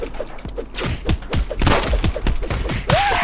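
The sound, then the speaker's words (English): Gunfire in a video game: many sharp, irregular shots and thuds fire in quick succession, loud and dense throughout. “Yeah, see, so now I'm getting shot at.”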